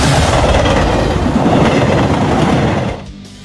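A train rolls along the rails with a loud, steady rumble and rattling clatter that drops away near the end.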